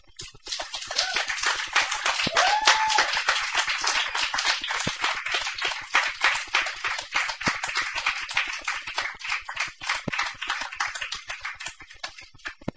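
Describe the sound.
An audience applauding a poet at a poetry reading, sustained clapping with a fairly even, steady beat that carries on for the whole stretch.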